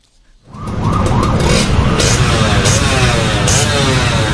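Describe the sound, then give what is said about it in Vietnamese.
Loud revving from a large-displacement motorcycle with a modified exhaust on a city road. It bursts in after a brief quiet and holds a harsh, roaring engine note that wavers up and down through repeated throttle blips. “thì âm thanh mà quý vị vừa nghe đó là tiếng nẹt bô mà Công ghi nhận tại cái tuyến đường Nguyễn Văn Linh”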